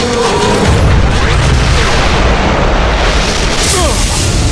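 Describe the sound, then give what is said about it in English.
A powerful energy beam blasts into a fighter from behind during a superhero battle: a loud, dense, roaring burst of noise that holds steady for the full four and a half seconds, with a few brief sweeping zaps near the end. “A powerful energy beam blasted into Superman from behind.”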